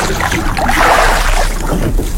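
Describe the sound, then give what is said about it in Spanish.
Oars paddle through water as a boat is rowed, making a continuous, fairly loud wash of splashing and sloshing with no clear separate strokes. “Rema tu bote. Qué chido se escucha, ¿verdad? Es remando.”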